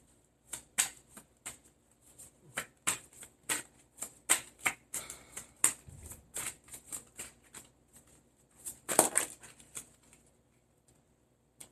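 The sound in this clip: Tarot cards being shuffled: a long run of quick, crisp card snaps and riffles with an uneven rhythm, heard alone with no talk.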